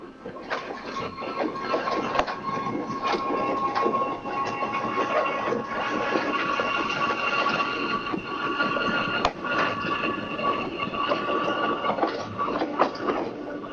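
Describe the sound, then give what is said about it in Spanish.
A commuter train runs in a steady, loud rumble, inside a windowless carriage, with rattling clickety-clack and a sharp click near the middle, continuous throughout without talk. “el tren que tenía que llegar 8:10 venía atrasado, como siempre. Se cierran otra vez las puertas y entiendo que hasta Retiro ya no va a mejorar el viaje.”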